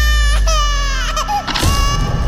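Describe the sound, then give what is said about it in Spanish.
An infant cries loudly in wavering, wailing bursts whose pitch bends up and down, breaking briefly between cries before a harsher, sobbing wail. “¿Alguna vez te has preguntado por qué lloramos?”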